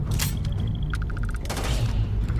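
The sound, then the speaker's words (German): Gunfire in a battle in the video game Starfield: sharp, explosive bursts and rapid electronic beeping over a dense, loud low rumble. “und jetzt hier mal so die, diese Schlachten eben, wie gesagt. Ich kann meine Waffe dann auch später noch aufrüsten.”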